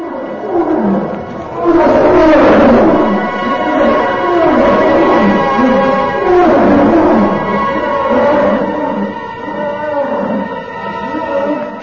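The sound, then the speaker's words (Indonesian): Hungry white polar bears roar as they approach an Eskimo village: loud, drawn-out, rumbling roars that overlap and swell repeatedly, with no voices heard. “tampak beberapa ekor beruang es yang berbulu putih melangkah mendekati perkampungan orang-orang Eskimo itu sambil meraung-raung kelaparan.”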